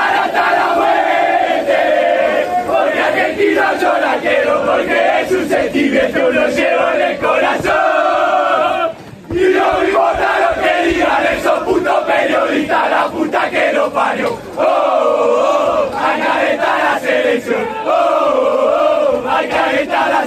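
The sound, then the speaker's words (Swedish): Argentina's team chanting and shouting loudly as they pass through the mixed zone after a match, a continuous, rhythmic group chant with sustained voices and one short break partway through. “Och det ni hör där är Argentina när de gick igenom den mixade zonen.”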